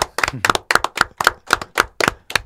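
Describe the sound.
Rhythmic clapping from an audience welcoming an evening guest, a steady, evenly spaced beat of loud claps in unison.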